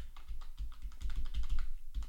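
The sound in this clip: A braille keyboard used with an iPhone clicks with many quick, light key presses in an uneven typing rhythm, over a low, steady rumble.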